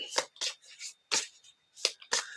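Cards are drawn from a deck: a few soft, brief papery swishes and slides, separated by short pauses of near silence.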